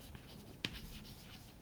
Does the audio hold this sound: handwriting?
yes